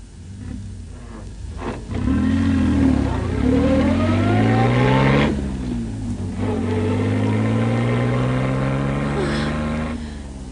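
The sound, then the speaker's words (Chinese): A car engine starts and revs up as the vehicle drives off, a loud, steady drone whose pitch sweeps and climbs with acceleration after a quieter opening couple of seconds. “喂，而家可以开车啦”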